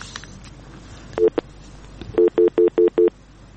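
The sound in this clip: Telephone signal tones at the start of a listener call-in to a Pashto news discussion programme: a couple of short beeps, then five evenly spaced, steady mid-pitched tones, clear and alone.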